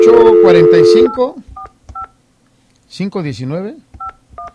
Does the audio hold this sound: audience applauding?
no